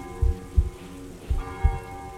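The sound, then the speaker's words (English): Light rain falls in a video game as a steady hiss of patter. A sustained tonal drone runs beneath it, and two pairs of low, heavy heartbeat thumps sound through it. “and it is raining, so. Not very hard, but it is raining.”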